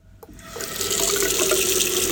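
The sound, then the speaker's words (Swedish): A tap is turned on with a brief click, and the water quickly builds into a steady, loud gushing stream that keeps running. “Det finns där, det kommer ur kranen”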